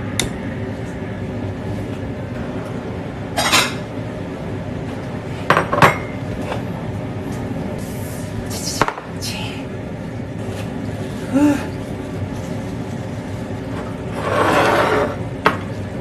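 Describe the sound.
Dishes and cutlery clink sparsely as rice is dished up and served during home cooking of Thai yellow curry. Light taps and clinks of tableware sound over a steady background hum.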